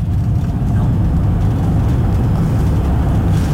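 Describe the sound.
A car driving with a steady, loud, low road and engine rumble that holds even throughout, with no distinct separate events.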